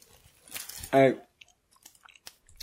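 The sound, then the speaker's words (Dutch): Food being crunched close to the microphone: a few short, crisp chewing crunches around a brief voiced vocal sound, fairly faint overall. “Oh nee, ik hoop niet dat er kruimels in de microfoon zitten. Ja! Lekker crunch in je audio.”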